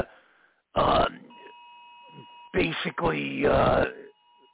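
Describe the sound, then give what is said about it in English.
An Amber Alert emergency tone comes through phones as a faint, steady high electronic tone that holds for several seconds, beneath louder bursts of voices and grunting. “it looks like an Amber Alert coming through the phones, lines, and everything in general, man.”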